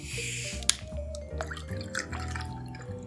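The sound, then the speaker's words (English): Soda water poured to top up a gin cocktail of gin, lemon juice and sugar syrup over ice: trickling, dripping liquid with a sharp click early on, over steady low tones. “Add 3 measures of gin. Add 2 shots of lemon juice. And then a jigger of sugar syrup. Top with soda.”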